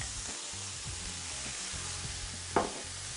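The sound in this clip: Steady hiss and sizzle of kale cooking down in a hot pan, a dense, even frying texture with one brief sharper knock near the end.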